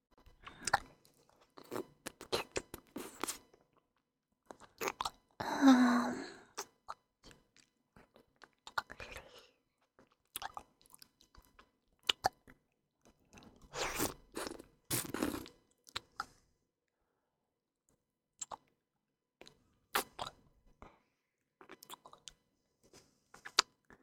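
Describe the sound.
Chewing and eating food: many intermittent bursts of crunchy bites and wet mastication, separated by stretches of silence, with no talking.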